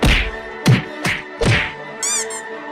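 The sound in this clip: Cartoon-style punch effect for a knockout blow in a comic fight against a reptile villain: a few heavy thwacks and thuds land in quick succession, followed by a short bright ringing tone.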